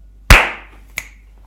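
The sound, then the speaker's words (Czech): A single sharp hand clap, loud and crisp with a short decaying tail, followed moments later by a much fainter, brief snap. “uh, já tlesknu. Tleskni.”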